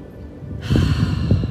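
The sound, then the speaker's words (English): A deep breath taken at the start of a guided breathing exercise: a soft, airy rush of air that begins partway in and swells into a steady, fuller breath, with no voices. “let's just start by focusing on our breath and just taking a nice deep breath as well.”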